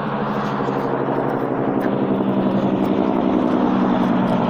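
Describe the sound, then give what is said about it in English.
A loud truck on the road gives a heavy, steady engine roar with broad road noise that holds at an even level throughout, with no talk. “oh, fuck you, loud truck. Stupid piece of shit. Be electric or get the fuck off the road.”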